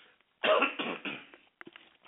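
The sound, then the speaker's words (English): A person coughs in a quick series of three harsh bursts, the first the loudest, then a couple of faint throat sounds trail off. “just a second, I got a cough again.”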